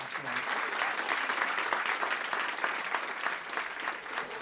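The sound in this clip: An audience applauds at the end of a sold-out evening talk show. The dense, sustained clapping holds at an even, lively level from start to finish.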